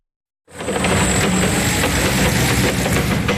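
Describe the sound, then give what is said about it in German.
A forklift engine runs as the truck carries crates of freshly picked apples from an orchard into a warehouse. After a brief silence, a loud, constant rumble starts abruptly and holds steady without any pause. “Mit einem Hubstapler fährt Stefan Anderes Kiste um Kiste, randvoll mit frisch gepflückten Äpfeln von seiner Obstanlage in die Lagerhalle.”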